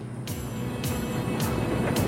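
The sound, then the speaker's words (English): A truck drives over the brow of a hill and along a winding desert road through scrubland, its engine a steady low rumble broken by a few short hissing bursts. “A truck drives over the brow of a hill on a desert road, with Earl driving and Grady beside him.”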